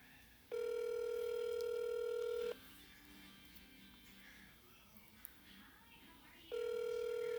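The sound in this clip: Ringback tone of an outgoing telephone call waiting to be answered: a steady, faint electronic ring lasting about two seconds, a long quiet gap, then the next ring beginning.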